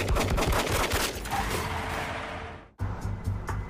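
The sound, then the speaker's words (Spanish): Rapid gunfire from two 9 mm pistols shot through cut-out windows in the side of a van at a Cadillac: a loud, dense fusillade of many overlapping cracks that fades, cuts out briefly, then returns as a noisy burst. “Dos hombres armados empujaron pistolas de 9 milímetros a través de unas ventanillas cortadas en el costado de la camioneta y abrieron fuego.”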